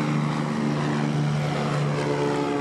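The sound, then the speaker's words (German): A propeller airplane tows a huge banner over Berlin. Its engine makes a steady, unbroken drone with a fixed low tone, moderately loud throughout, and no voices are heard. “Das ist ein Flugzeug mit einem riesen Banner.”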